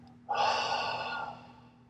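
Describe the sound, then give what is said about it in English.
A breathy exhale during a guided breathing exercise, a sustained soft airy release that holds steady, then fades out gently. “Hold for just 3, 2, 1, and double exhale.”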